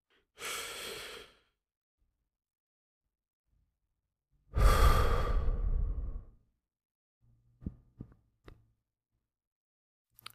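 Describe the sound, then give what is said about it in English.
A deep inhale during a guided relaxation exercise, then, after a pause, a longer and louder relaxing exhale, followed by a few faint clicks. “inhale and consciously relax that area of your body through the exhale.”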